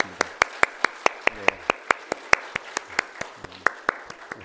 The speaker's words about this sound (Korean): 우리 성가대와 우리 반주자를 위해서 한번 격려의 박수